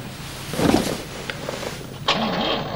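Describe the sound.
The engine of a Wartburg car is started. A brief grinding crank sounds early on, then the motor catches near the end and turns into an uneven, wavering running drone.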